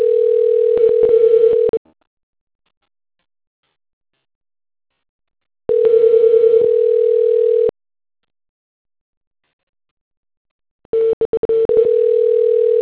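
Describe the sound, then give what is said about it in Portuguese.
Three long, steady, mid-pitched beeps from a phone network tone sound after a voicemail announcement on a call, separated by long silences, with the last tone cut off. “Chamada especial encaminhada para a caixa postal e está sujeita à cobrança após o sinal.”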